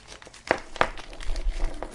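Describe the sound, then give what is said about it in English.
Plastic crinkling as a bag of test-lead accessories, including lead extenders, is opened: two sharp crackles in quick succession, followed by softer rustling and handling noise. “Oh, let's go through this other bag of whatever goodies you get with the red one. You get lead extenders.”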